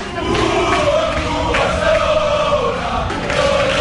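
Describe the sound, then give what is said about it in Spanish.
Thousands of FC Barcelona football fans fill a fan zone ahead of a final. Dense, loud crowd noise with chanting voices runs unbroken throughout. “Este es el sonido de la zona fan azulgrana, donde están los miles de aficionados del FC Barcelona.”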